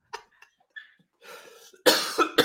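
Coughing from a person with whooping cough: quieter throat sounds and breaths, then a few harsh, loud coughs in quick succession.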